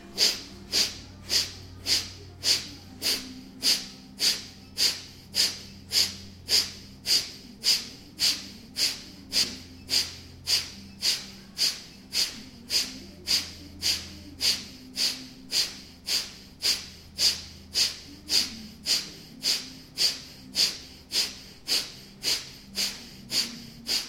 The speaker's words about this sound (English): Breathing in and breathing in halfway, bless you, and beginning Kapalabhati.